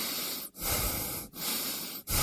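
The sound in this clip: A person breathes in and out on command: long, steady rushing breaths broken by three brief silent pauses at roughly even intervals, with no talk.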